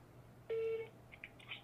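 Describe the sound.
A single clear electronic beep from a telephone as a call is dialed. It holds steady for about a third of a second and is followed by a few faint, short bleeps, with no talk.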